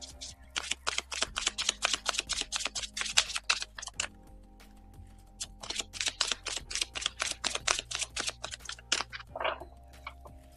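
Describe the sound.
Oracle cards are shuffled and drawn from a deck in two long runs of rapid, crisp flicking taps, separated by a short pause. The sound is fairly quiet and no one talks.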